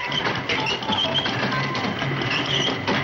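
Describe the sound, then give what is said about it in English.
Steady mechanical clatter and whir of a toy-making machine turning out teddy bears and dolls, a dense continuous rattle at even loudness throughout with no pauses. “stop the machine!”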